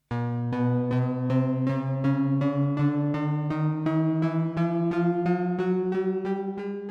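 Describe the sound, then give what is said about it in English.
Repeated sustained tones climb in quarter-tone steps, the octave divided into 24 pitches. Many evenly spaced note attacks follow in a steady pulse, with the pitch rising gradually and smoothly from low to slightly higher. “In Threnody, Penderecki uses icocytophonic language, which divides an octave into 24 quarter-tonal pitches, which sound like this”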